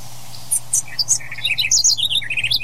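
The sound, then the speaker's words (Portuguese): A small Correca songbird sings a run of quick, high chirps and short trills, bright and fairly loud over a low, steady hum. “a Correca é um passarinho pequeno que nem o Gaturamo. O Gaturamo é pequeno, mas sabe cantar muito bonito, e a Correca fala bem também. É, tá aqui cantando, ó, ela, ó.”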